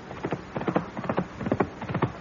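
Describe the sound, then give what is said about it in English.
Horse hoofbeats in a dramatized countryside scene, a steady rhythmic clip-clop of repeated hoof strikes in quick groups, moderately loud and continuous throughout, with no voices. “The hoofbeats! This time they're coming straight for the house!”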